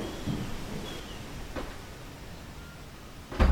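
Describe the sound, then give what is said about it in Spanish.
A door closes with a single low, solid thud at the very end, after a long stretch of faint hissing background noise with a couple of soft knocks. “Al final como que se cierra una puerta.”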